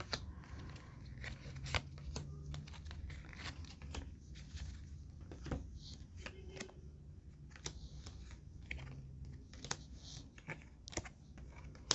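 Tarot cards handled and drawn during a tarot reading, a faint, scattered series of many soft clicks, taps and light rustles without voices.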